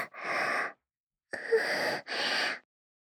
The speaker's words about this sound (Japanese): また深呼吸。